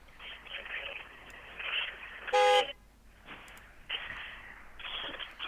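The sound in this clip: A single car horn honks outside a library beside the book-pickup drive-thru, one bright, brief blast in the middle, with people talking before and after it.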